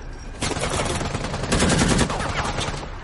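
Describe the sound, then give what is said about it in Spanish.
A tank cannon fires at an enemy line in a World War II war drama, heard as a dense, continuous roar of blasts with rapid rattling, gunfire-like bursts that swell after a short quiet start and stay loud throughout. “El tanque dispara a la línea enemiga.”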